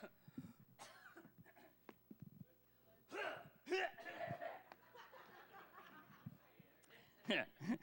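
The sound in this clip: Coughing blamed on allergies at a Sunday morning worship service: a few harsh coughs and throaty bursts scattered among softer breathy sounds, all faint.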